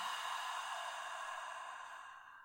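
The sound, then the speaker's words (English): A deep exhale through an open mouth during a guided breathing exercise: a steady, breathy rush of air lasting about two and a half seconds that slowly softens at the end, with no talk. “Big breath in. Open mouth, exhale.”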